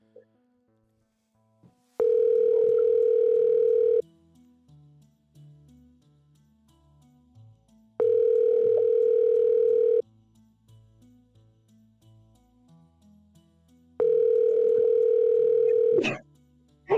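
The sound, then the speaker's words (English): Ringback tone of an outgoing phone call: three long, steady, mid-pitched tones of about two seconds each, evenly spaced by quiet gaps, with a short click right after the last one. “We're gonna call Dave. All right, call Dave. We're calling him right now.”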